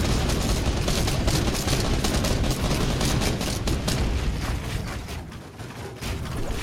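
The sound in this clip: Rapid gunfire from a video game shootout, with dense overlapping shots and bursts that form a loud, continuous barrage across the whole clip and dip only briefly near the end.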